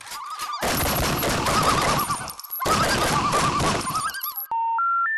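A gunfire sound effect plays as two long bursts of rapid, dense shots separated by a short gap, followed by a few stepped electronic tones at the end.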